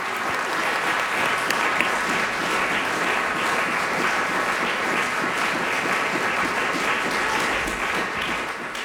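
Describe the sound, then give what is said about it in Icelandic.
Concert audience applauding the performers after the closing works of a song-festival concert at Hafnarborg. The clapping is dense and steady, holding an even, full level for the whole stretch with no voices standing out. “Flytjendunum var vel fagnað og áheyrendur uppskáru aukalag.”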